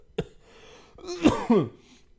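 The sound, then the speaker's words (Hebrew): A fake, deliberately acted cough: a few short, throaty bursts. A sharp one comes first, then a softer one, and the last two are the loudest and rasp with a falling pitch. “זה לא באמת שיעול קורונה, כן, אני פשוט יש לי יכולות משחק מטורפים”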